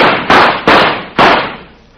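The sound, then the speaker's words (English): Gunshots fired at a rattlesnake, a quick series of loud, sharp cracks, each followed by a broad decaying tail that fades before the next shot, ending in a fading ring. “you hit him with all four shots.”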